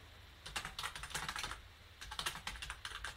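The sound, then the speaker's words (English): Quick clattering keystrokes of typing on a computer keyboard, fast bursts of clicks with a brief pause midway, fairly faint and with no voices. “Right, so I just typed that pretty quick.”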